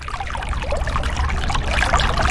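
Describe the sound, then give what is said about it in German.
River water splashing and trickling around a kayak on the Saale, a steady, dense wash of bubbling, gurgling water that keeps an even loudness throughout, with no voices. “Direkt an der Saale, in der Aue oder auf dem Fluss im Kajak.”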